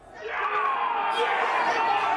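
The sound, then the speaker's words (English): Scattered cheers and shouts ring out from open windows around Boston. The yelling swells quickly at the start, then holds as a loud, sustained mass of raised voices. “Today, those shouts are staggered. We get a splattering of cheers, like scatter points on a graph.”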